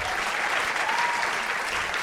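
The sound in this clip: An audience applauds a painter at a live evening event, with dense, steady clapping that holds at an even level throughout.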